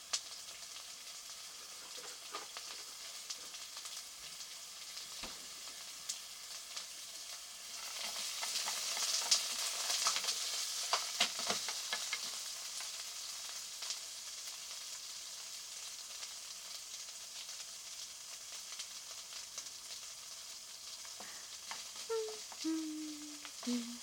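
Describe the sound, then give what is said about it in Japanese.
Paprika and butter fry in a pan with a soft, steady sizzle. The crackle runs throughout, with scattered stirring clicks and a brief swell in the middle. “あとはパプリカ、そしてバターを入れてと。”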